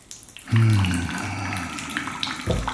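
Warm water splashes and sloshes in a bathtub as someone bathes. A full, low surge of water begins after a short pause and settles into steady movement, with another low swell near the end.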